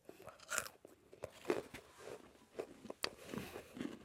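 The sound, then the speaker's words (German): Faint, dry crunching as someone bites into and chews light, brittle freeze-dried chocolate ice cream, many small crisp cracks in an uneven rhythm, heard alone and quietly. “Und jetzt probieren wir also gefriergetrocknetes Schokoeis.”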